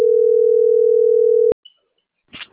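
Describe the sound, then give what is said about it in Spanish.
A telephone ringback tone plays while a call is placed: a loud, steady, single-pitched hum for about a second and a half that cuts off sharply, followed by near silence and a brief faint rustle. “Que está llamando.”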